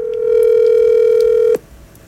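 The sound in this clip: Telephone tone as a call is placed: a single steady, loud hum that holds for about a second and a half, then cuts off abruptly into quiet.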